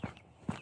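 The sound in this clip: Footsteps walking outdoors in the early morning: two soft, low thuds about half a second apart, with a lighter scuff just after the second, all faint.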